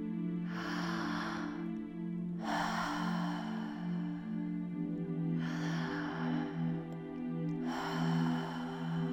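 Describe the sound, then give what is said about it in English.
Gentle breathing through an open mouth during a relaxation exercise: four long, airy breaths, each swelling and fading, over a low, sustained musical drone. “Close the eyes and start to gently breathe through an open mouth.”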